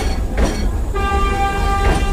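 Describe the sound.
A tram moving on rails in city traffic makes a steady, loud rumbling roar, joined partway through by a sustained high, tonal whine that holds to the end.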